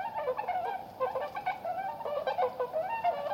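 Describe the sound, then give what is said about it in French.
Cranes call at dawn in a forest, a continuous chorus of overlapping nasal, honking cries with many repeated calls of steady pitch, and no voices heard. “Leurs discussions sont parfois entrecoupées par les cris puissants des grues.”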